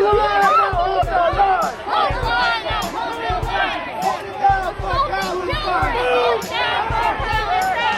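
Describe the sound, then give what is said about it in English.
Crowd of protesters at Washington University in St. Louis shouting as authorities confront them on Saturday: many voices yell and chant together in a dense, continuous roar, with sharp shouted bursts throughout. “That was the sound of authorities confronting pro-Palestine protesters at Washington University in St. Louis on Saturday.”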